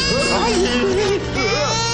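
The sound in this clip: Baby crying in wavering, high wails that rise and fall, repeated several times over a steady tonal background.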